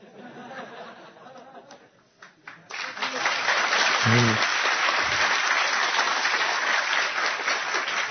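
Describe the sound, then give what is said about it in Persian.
An audience breaks into applause after a speaker talks: dense, loud clapping swells up and carries on steadily for several seconds to the end. “شما دست زدید اینا.”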